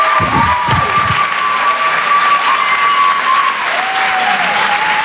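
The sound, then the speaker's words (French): Loud, sustained applause and cheering from a comedy club audience welcoming a stand-up comedian to the stage; the clapping stays steady and dense for the whole clip. “Faites du bruit s'il vous plaît pour Lala sur Rire et Chanson.”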